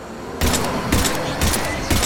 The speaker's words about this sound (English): Shepard shoots at Ninja Man as he flips and runs away, but he jumps off a ledge. Ooh, onto a sky car. Shoot, shoot, shoot.